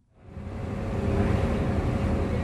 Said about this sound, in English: This is the sound of the Maldives. Diesel engines drive almost everything here, from the ferries that run between the country's islands to the electric generators that provide power to its